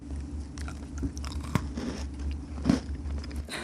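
Faint crunching and chewing as someone bites into a flower-shaped cookie made with silkworm, with two sharper crunches standing out from the soft, continuous chewing.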